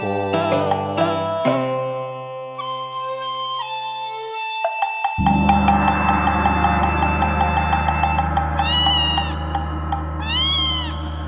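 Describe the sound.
Two drawn-out cat meows rise and fall near the end of a passage of steady electronic music, with no voices present.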